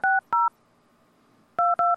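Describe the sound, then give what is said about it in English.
Telephone keypad dialing tones sound as a number is tried again after a failed long-distance call: two short, steady beeps, a pause, then three more in quick succession, clean and alone with no talk. “Well, let me try that again. Try the other number? Yeah, I'll try the other number.”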